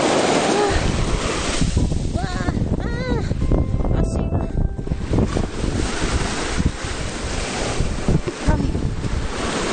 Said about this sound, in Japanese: しまった。波が、うわー、来たー、波が来たー。